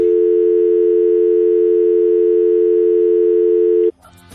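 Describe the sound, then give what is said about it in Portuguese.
A steady telephone line tone sounds while a call is being placed: one continuous, even mid-pitched hum held for nearly four seconds, then cut off abruptly into a brief burst of clattering noise. “Agora a gente vai ligar pro Lala.”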